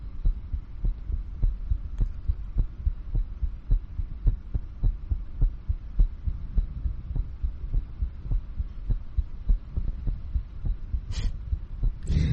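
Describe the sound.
Rapid heartbeat, a long run of steady low thumps that repeat quickly and evenly throughout, with a faint hum beneath and no voices.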